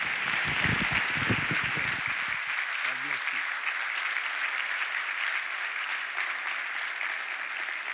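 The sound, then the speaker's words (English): Audience applause welcoming a speaker at a ministry network's ordination night: dense, steady clapping runs at even loudness throughout, with a voice briefly heard over it near the start. “Let's put our hands together and give a warm Pendel Ministry Network welcome to Rick Du Bois.”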